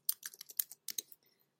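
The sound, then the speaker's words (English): Typing on a computer keyboard: many quick, crisp key clicks in irregular bursts, then a few softer taps trailing off, with no talking. “I have to type for a second”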